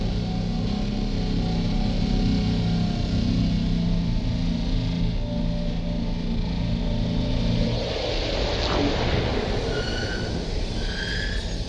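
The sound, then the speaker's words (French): Ship engines shut down with a dense, steady mechanical rumble and low droning tones. After about eight seconds the low drone cuts out, leaving a hissing, airy noise. “il ne nous reste plus qu'à mettre les moteurs à l'arrêt”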